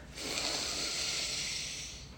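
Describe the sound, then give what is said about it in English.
A slow, deep breath taken during a calming breathing exercise, a steady airy hiss that swells in and then fades over about two seconds, with no other sound. “So right now, take a deep breath.”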